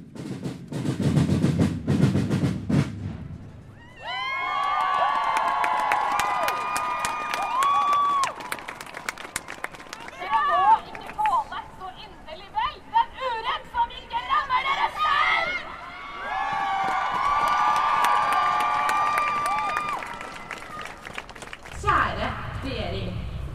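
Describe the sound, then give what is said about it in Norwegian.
Crowd cheering, roaring and clapping at a protest rally against hospital budget cuts, with a brief burst of noisy crowd sound at the start followed by a long stretch of loud amplified speech and sustained crowd noise. “Det brøles og klappes etter ethvert poeng en taler kommer med.”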